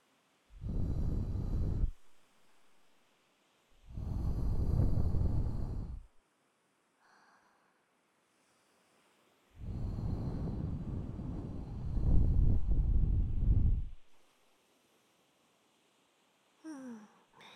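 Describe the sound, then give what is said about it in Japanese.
Breath blown softly into the ear, heard as several long, airy whooshes with a low rumble. Quiet pauses separate them, and a brief, faint puff comes near the end. “耳に息を少し失礼します。”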